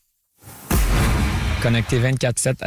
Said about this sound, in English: That's the sound of an anti-hail cannon. Shoots shockwaves into the sky and stops hailstones from reaching the ground in solid form.